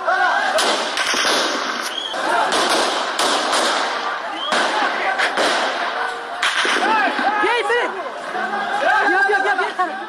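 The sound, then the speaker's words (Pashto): Gunshots fired into the air at a street protest: several sharp cracks break through a dense, continuous roar of crowd shouting and chanting. “دوی اعتراض په فیسبوک باندې ژوندې خبرو چیرې چې د ډز غوګون هم اوریدل کیږي.”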